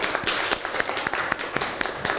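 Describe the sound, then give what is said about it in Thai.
Students in a classroom applaud a classmate, their hands falling into a steady, evenly spaced clapping beat over a softer background of scattered claps. “พื้นที่ว่างปรบมือให้เพื่อนหน่อย”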